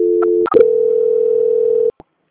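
Telephone tones during a call transfer: a steady two-note dial-type tone, a brief burst of chirping tones, then one long steady tone that holds for over a second before cutting off, followed by a single faint click.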